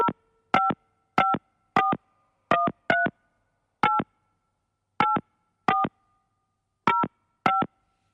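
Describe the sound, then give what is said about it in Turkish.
Touch-tone keypad beeps of a telephone number being dialled to place a call: eleven short, clean dual-tone bleeps at uneven intervals, some in quick pairs and some spaced apart, with silence between them and no talking. “Gassal Hanım ben arıyorum sizi. Açınız lütfen numarayı.”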